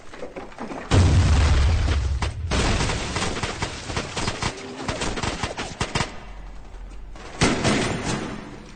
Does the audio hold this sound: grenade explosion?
yes